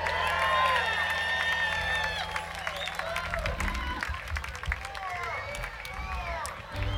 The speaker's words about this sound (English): give my man a round of applause.